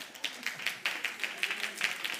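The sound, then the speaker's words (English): A person in a church audience clapping: a quick, even run of many sharp claps at a steady rhythm, fairly faint. “Somebody's clapping, but.”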